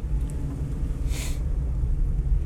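Car driving along a road between Solarino and Palazzolo Acreide, a steady low rumble of engine and tyres with one brief airy hiss midway.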